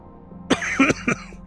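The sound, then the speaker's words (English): Three short, sharp coughs from a person in quick succession, each a harsh burst standing alone with no talk over them. “And I have no idea why I'm coughing.”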